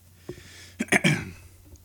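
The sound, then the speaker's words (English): A person clears their throat: a small catch first, then a cluster of rough, breathy bursts about a second in, followed by quiet. “That's just how we open the throat.”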